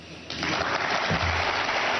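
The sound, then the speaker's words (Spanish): An ovation for a footballer at his official presentation: a dense wash of clapping that breaks out abruptly after a brief quiet moment and continues steadily. “Y se ha llevado la ovación de los que estaban allí.”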